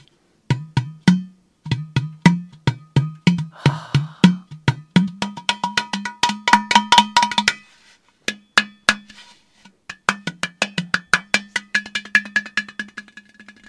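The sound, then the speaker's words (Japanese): Ceramic vessels holding different amounts of water, struck one after another. Many bright clinking notes at varying pitches form a melodic run, with a short pause partway through before the strikes resume. “器にいろんな量のお水が入ってて、いろんな器があるんですけど、これ音がこう水の量によってでも変わるんですね。”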